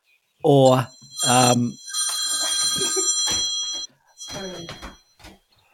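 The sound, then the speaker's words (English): A telephone ringing: one sustained, bright electronic ring between bursts of male voices talking. “you better get that phone, mate, to answer that, he's off to answer the phone”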